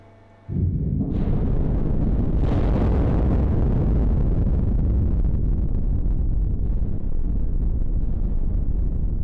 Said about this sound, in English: Now we feel the blasting works. It's 180 meters from this point.